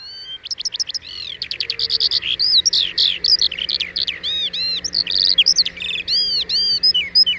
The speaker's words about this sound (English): It's the song of the skylark, the bird whose songful brilliance inspired English poets and gave its name to the phrase, an exaltation of larks.